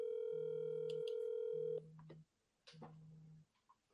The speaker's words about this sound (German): Anrufen. Ich mache euch mal auf Lautsprecher.